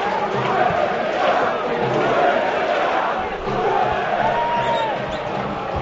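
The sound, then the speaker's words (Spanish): A football stadium crowd chants "Rubén vete ya" during a Huesca match, a dense, steady roar of many voices that stays loud and unbroken throughout. “El público sí se viene arriba ahora. Mira, ¿eh? Mira, sí. Mira, escucha, escucha. Rubén vete ya, canta, no es que se vengan arriba. Rubén vete ya, está sí, cantando.”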